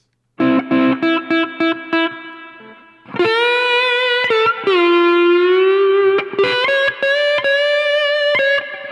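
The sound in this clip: Distorted electric guitar played through an amplifier with the tone control turned up, giving a bright, overdriven sound. Several short choppy chords open the passage, followed by long, sustained ringing chords, loud and without talking.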